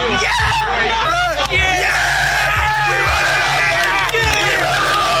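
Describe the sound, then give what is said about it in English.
Columbia Eagles team members cheer their first win since 2015, a loud, unbroken wall of yelling, whooping and shouting from many voices together. “Their first win since 2015. Here's some sounds from their celebration courtesy of Fox 54 News in Huntsville.”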